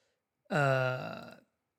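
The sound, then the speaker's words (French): A single burp from a man mid-speech, a voiced, resonant belch lasting about a second that starts abruptly, holds steady and tapers off, heard alone. “excusez-moi, je rote”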